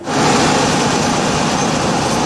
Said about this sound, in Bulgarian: Централна ЖП гара, четвърти коловоз. Сваряваме билета. Влизаме в новата мотриса.